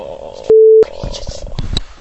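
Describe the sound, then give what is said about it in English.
A single loud electronic beep of a telephone ringing tone during a call, low and steady in pitch and lasting about a third of a second, with people talking before and after it. “I'm just going to have to keep ringing my phone.”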